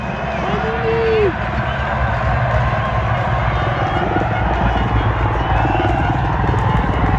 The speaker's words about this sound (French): mais là on entend vraiment la clameur du public